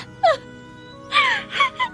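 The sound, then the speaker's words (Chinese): A person cries and wails in a dramatic scene: a few sobbing, voiced bursts whose pitch slides downward, one short cry early on, then a longer cluster of wails near the end. “哭吧，现在该你哭了”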